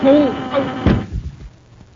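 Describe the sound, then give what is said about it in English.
A ray gun fires in a space-patrol adventure drama: a voice speaks briefly, then a sharp burst lands near the middle, followed by a couple of duller thumps that fade out. “Yeah. I shot the Commander-in-Chief of the Space Patrol and this cadet.”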